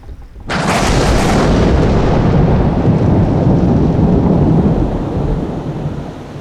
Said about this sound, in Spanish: el cielo comenzó a ponerse gris, las nubes se abrieron, comenzó a llover y comenzó una gran tormenta.